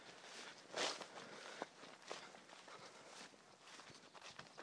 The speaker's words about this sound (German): Deshalb laufe ich jetzt nicht ganz bis zum Dorfrand.